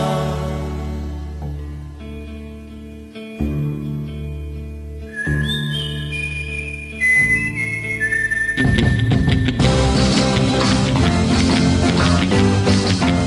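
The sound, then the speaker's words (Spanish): Rhythmic, melodic whistling in a song: a clear, high whistled tune stepping between notes over instrumental backing, after which the full band swells louder and the whistling fades into the mix. “¿Qué tal ese silbidito encantador, rítmico y melódico?”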